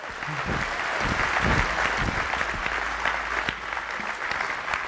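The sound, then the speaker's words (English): Congregation at a church service applauding to welcome a pastor to the pulpit: sustained, steady clapping from many people, fairly even throughout, with a few soft low thumps beneath it. “At this time, at all of our campuses, if you would put your hands together, and let's welcome Rodell Hernandez to our pulpit.”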